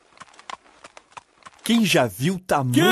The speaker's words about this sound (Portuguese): Primeiro, veio um fazendeiro com uma carroça carregada de sementes que levava para a moagem na usina.